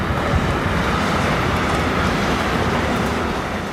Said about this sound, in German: Dann fährt noch einer durch, der Hotelchef Andreas Stüber Hoffnung macht. Da war jetzt keine Flachstelle dazwischen, gar nichts, die ist einfach gerollt.